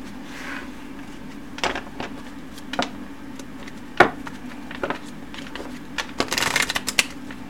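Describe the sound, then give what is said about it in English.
Tarot cards are shuffled and slid across a desk, making soft papery rustles broken by several sharp taps and flicks, over a low steady hum. “I can't, like, lift the cards up with my fingers or my nails, unfortunately. I have to slide them on the desk.”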